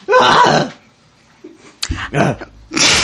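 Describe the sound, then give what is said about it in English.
A person clears their throat with a few loud, harsh, rasping bursts that are partly voiced, with brief gaps between them. “Sorry, just getting something out of my throat there.”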